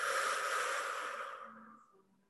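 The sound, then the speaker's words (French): A deep breath is released in a long, soft, airy exhale during a guided breathing exercise. The breathy hiss starts full and fades gradually to near silence over about two seconds. “prendre une première grande inspire par le nez et par la bouche, on expire.”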